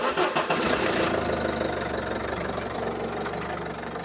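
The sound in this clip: A car engine starting: a rough, busy burst of cranking for about a second, then the engine catches and settles into a loud, steady running rumble.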